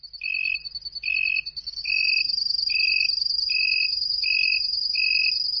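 Cricket chirping: a steady, piercing high trill runs throughout, overlaid by shorter, lower chirps repeating at an even rhythm, about seven in all, clear and alone without voices.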